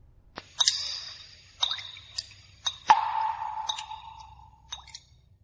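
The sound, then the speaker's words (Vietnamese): Water drips from the ceiling of an underground cave, several clear, ringing drops landing at uneven intervals, some with a longer falling tone, over near silence. “Nước từ phía trên hang động nhỏ xuống”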